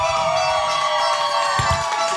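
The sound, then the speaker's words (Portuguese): Ecuador football fans cheering in São Paulo's Cerqueira neighbourhood during the World Cup: a continuous, loud crowd roar with steady tonal tones running through it. “E eu estou aqui com a torcida do Equador no bairro Cerqueira, na capital paulista, em São Paulo. Como é que tá a torcida do Equador? Mostra aí, pessoal!”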